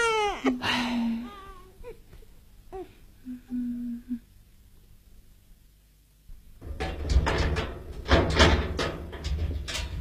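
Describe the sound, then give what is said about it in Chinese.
An infant whimpers and cries in short, wavering bursts over the first few seconds, then falls quiet before a louder, busier stretch of mixed noises. “哎，乖乖不哭啊！ 哦哦， 不哭， 别哭啊，乖， 不哭啊！”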